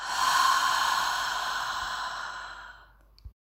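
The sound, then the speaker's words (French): A long breath out through the mouth during a guided breathing exercise makes a soft, airy whoosh that starts strong and fades over about three seconds, ending with a small nasal snort. “Inspire par le nez. Expire par la bouche.”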